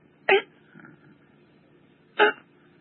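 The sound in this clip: A voice imitates a sick baby gasping for breath, with two sharp, breathy gasps well apart and a faint rasp between them. The gasps are heard alone, with no speech.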